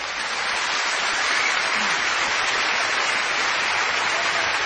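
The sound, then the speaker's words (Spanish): An audience applauding during a church service, a steady, continuous wash of clapping that holds an even level for several seconds, with no talk over it. “¿No le dan un aplauso al Señor?”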